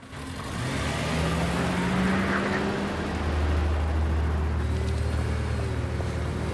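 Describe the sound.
Car driving off, its engine droning steadily and growing louder as the vehicle pulls away, with the engine note shifting in pitch. No voices are heard.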